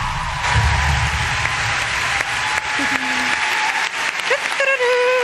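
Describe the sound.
Audience applause greets a special guest at an evening stage show: steady, dense clapping fills the whole stretch, with a few voices and cheers rising above it toward the end.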